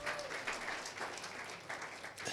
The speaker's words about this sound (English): Come on, give the Lord a mighty clap.